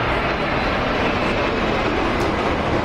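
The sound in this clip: Airplane noise at Madrid-Barajas airport: a steady, loud, broad jet roar that holds without a break.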